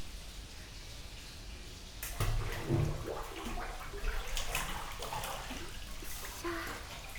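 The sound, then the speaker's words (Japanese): Water sloshes as a person lowers into a bathtub of hot water. A quiet start breaks into a splashing surge, then softer trickling and lapping continue. “それじゃ軽く湯船に浸かりましょうか。”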